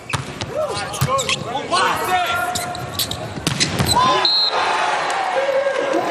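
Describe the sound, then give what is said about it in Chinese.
A volleyball bounced on the court before a serve in a match against Brazil, a few dull thuds under continuous commentary. “永贞来发球”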